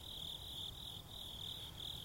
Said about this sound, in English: I'm going to turn back around here and walking near some... You hear that? Hear the bugs?